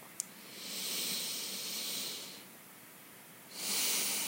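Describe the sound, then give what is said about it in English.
A deep breath taken during a guided body-awareness exercise: two long, soft, airy hisses of breath, quiet and unhurried, with a brief pause between them. “Okay, so landing in your body, perhaps taking a deeper breath.”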